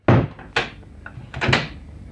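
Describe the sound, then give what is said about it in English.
A door in a bar is shut and locked after hours: a heavy thud, then a few sharper clicks and knocks from the lock. “Okay, come in. I'll just lock the door again.”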